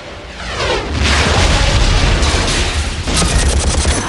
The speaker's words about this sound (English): Mitchell launches a rocket which destroys the radar dish.